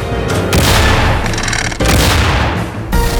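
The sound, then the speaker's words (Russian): Tank cannon fire and exploding shells from a WWII battle between a Soviet KV tank and German tanks form a loud, continuous heavy barrage of booms and rumbling blasts, with a brief dip partway through. “На него обрушился град снарядов, башню заклинило. Но снаряды КВ поражали вражеские танки один за другим.”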